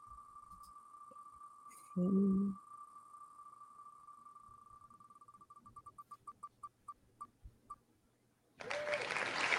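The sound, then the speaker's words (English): A prize wheel holding entrants' names spins with rapid ticking that slows into separate, widening clicks until it stops. A steady electronic tone runs beneath it, and a burst of clapping-like noise follows. “And then what I'm going to do is I'm going to spin the wheel. I'm going to see, because all the names are on the wheel, I'm going to see who won this copy of the book.”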